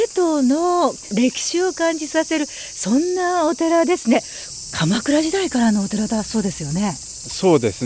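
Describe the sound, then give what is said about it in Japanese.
A constant high drone of cicadas fills the grounds of Mantokuji, a Kamakura-era temple in Seto, running unbroken beneath two people talking. “風があってセミの鳴き声も聞こえてますでしょうかね。”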